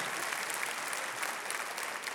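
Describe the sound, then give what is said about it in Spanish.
Church audience applauding during a New Year service, an even, continuous spread of many hands clapping, moderately soft and steady throughout. “Dale con fuerza ese aplauso a aquel que va a estar con nosotros en este nuevo año.”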